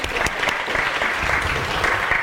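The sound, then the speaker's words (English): Applause from an audience celebrating a couple's 30th wedding anniversary: dense, steady clapping that stays loud and even throughout, with no other sound standing out. “I don't know who we're congratulating. I'm not sure about clapping for a wedding anniversary if you're congratulating their longevity.”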